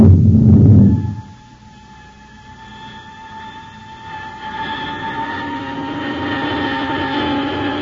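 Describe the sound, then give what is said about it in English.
A spaceship comes in for a landing: a loud, low rumble cuts away after about a second, giving way to a steady whining drone with sustained tones that slowly grows louder. “We're coming in for a landing.”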